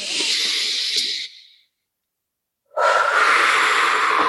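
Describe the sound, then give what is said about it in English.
A deep breath: a long, loud inhale of about a second and a half that trails off, a full silence, then an equally loud, steady exhale. “And take a deep breath.”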